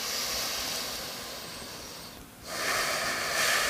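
Deep, slow breathing during a guided meditation: one long, breathy stream of air fades out, pauses briefly, then another strong breath swells up, loud and airy with no talking.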